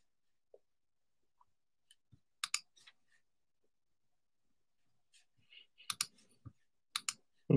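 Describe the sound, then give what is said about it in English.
Computer mouse clicks as a crypto wallet is opened. Sharp, quiet clicks start scattered and sparse, then come more often in quick pairs, with faint taps between them. “And let me just click on my MetaMask here, see what else I.”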